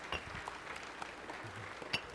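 Faint audience applause for a volunteer named Braden after he leaves the stage. Soft, scattered clapping with a few sharper claps stands out.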